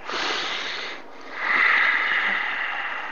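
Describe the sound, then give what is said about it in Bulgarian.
A slow, deep breath in through the body followed by a long exhale during a standing relaxation exercise; a soft airy inhale fades into a brief pause before a fuller, steady outbreath, with no talking. “Поеми дълбоко дъх и изпусни.”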